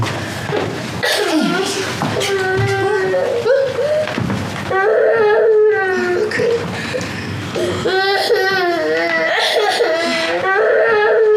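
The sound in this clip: A child crying loudly in long, wavering wails and sobs that run through the whole clip, with adults talking over the crying.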